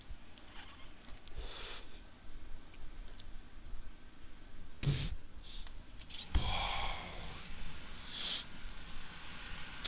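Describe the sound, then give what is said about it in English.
Inhaling and exhaling while smoking weed from a pipe: a few soft, breathy draws and puffs rise out of a quiet background, with one sharper burst in the second half. “The Jew in the Jew in me will not allow me to waste any of this fucking weed. So, yeah, it goes in my pipe, and that's that. Shove this in your pipe and smoke it, sonny. Sure will.”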